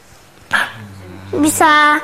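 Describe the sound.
A dog barks loudly a few times: a sharp opening bark, then after a pause a drawn-out, tonal bark with a whining quality.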